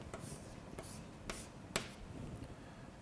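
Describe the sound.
Writing on a board during a lecture: a few short, dry scratchy strokes stand out at irregular intervals over a low, steady background murmur.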